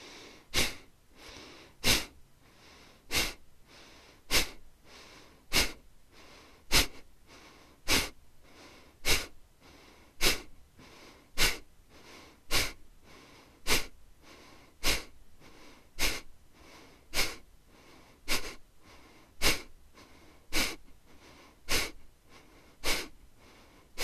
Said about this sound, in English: Now take a half inhale through the nose and begin the breath of fire.